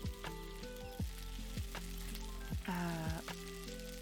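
Food fries on a stove with a steady sizzling hiss. Sharp pops and crackles recur throughout at a moderate, even level, with no voices.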